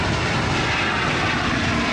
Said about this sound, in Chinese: C-919 从容地抬起头，穿越云层，翱翔在东海之滨，以近乎完美的姿态完成首飞